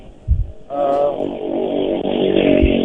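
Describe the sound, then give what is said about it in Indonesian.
Vehicles pass at high speed from several directions on a road near the coast: a brief low thump, then a loud, steady roar of traffic that sets in after the first moment and holds to the end. “Dan situasi di sini memang kendaraan dengan kecepatan tinggi juga dari beberapa arah,”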